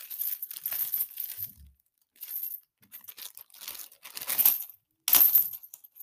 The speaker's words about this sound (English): I have package with me right now. It's kind of like a bag. I just can hear it. I'm about to open it up.